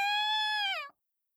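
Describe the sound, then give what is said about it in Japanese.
A single drawn-out meow from a Siberian cat, a fluffy, large Russian breed. The tone is faint and steady, dips in pitch at the end and then cuts off abruptly. “僕の名前はサイベリアン。ロシア生まれの猫で、このふわふわで大きな体が特徴だと言われているよ。”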